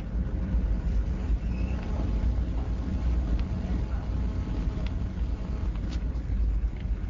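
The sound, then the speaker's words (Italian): A ferry's engine rumble and vibrations just after departure: a steady, deep, loud roar mixed with broad wind-like noise, unchanging throughout. “In questo momento il traghetto è partito, stiamo sentendo dei rumori inquietanti, c'è un rombo pazzesco, vi facciamo ascoltare le vibrazioni.”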